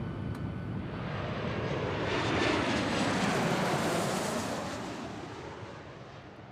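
Loud roar of an airplane engine during takeoff, a broad, rushing drone that swells to a peak midway and then eases slightly, heard alone without voices.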